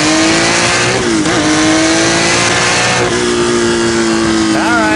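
Car engine revving on boost makes a loud, continuous, throaty drone that holds a steady pitch with a brief dip midway. A higher whine rises near the end.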